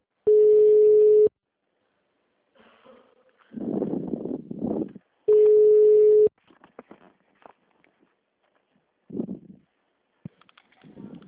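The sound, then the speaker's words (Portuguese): Telephone tone after a dropped call: two long, steady mid-pitched beeps, each about a second, separated by a gap in which a voice speaks briefly. “Ah, acho que caiu a ligação, né?”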